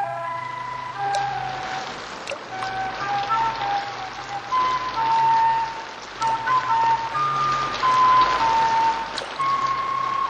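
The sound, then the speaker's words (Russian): Light drizzling rain falls in a steady, soft hiss that stays fairly even throughout, with no voices. “С утра моросило.”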